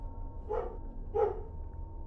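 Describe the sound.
Two short barks from a dog on a leash, suddenly alert and staring toward a forest, pulling hard. The barks are moderately loud, about half a second apart, over a faint steady background.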